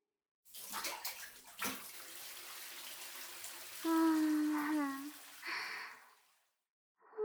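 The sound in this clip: Water poured over someone to rinse them off in a bath: a steady, hissing splash that runs for several seconds, with a brief voice sounding over it before the pouring stops.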